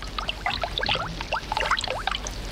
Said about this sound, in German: Schon sprudelt es wie eine Quelle. Es plätschert der Bach.